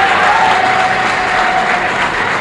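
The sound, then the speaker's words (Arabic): A concert audience at an Umm Kulthum performance at the Azbakeya Garden theatre applauds, a steady, loud wash of clapping with crowd noise mixed in and no break. “وكما تسمعون الجمهور فهو يطلبها بشدة.”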